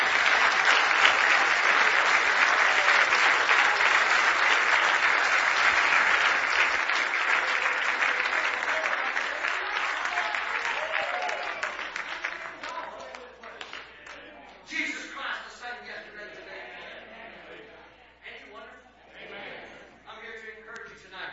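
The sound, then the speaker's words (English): Church audience giving a hand clap of praise: loud, dense, sustained applause that slowly thins and fades, giving way to scattered claps and voices toward the end. “Give him another hand clap of praise.”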